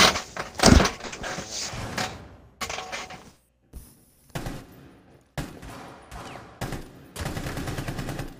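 Gunfire in the video game Fortnite: a series of sharp, loud shots and short bursts with quiet gaps between them, heavy at the start and again near the end.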